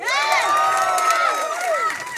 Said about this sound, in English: By round of applause, how many people are from Dublin?